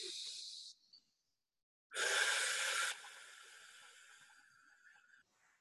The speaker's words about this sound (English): And take a deep breath in and out.